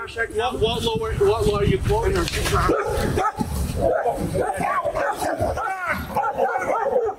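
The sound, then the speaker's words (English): A dog listed as dangerous barks and yips in rapid, loud bursts with whimpering yelps between, and voices are mixed in. “Yeah, so that was a dog already deemed to be a dangerous dog.”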